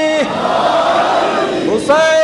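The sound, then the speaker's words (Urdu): A crowd shouts the Haidari slogan in unison, a loud, massed burst of voices lasting over a second, with a single voice briefly heard before and after it. “نعرہ حیدری”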